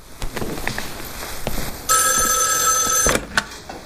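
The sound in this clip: A telephone rings with one sustained, bright electronic trill lasting about a second. It is loud and steady, and a few soft clicks and rustles come before it.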